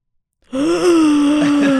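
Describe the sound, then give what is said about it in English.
A deep breath drawn after silence, loud and voiced with a steady, moaning tone that holds for over a second. “Can you take a deep breath?”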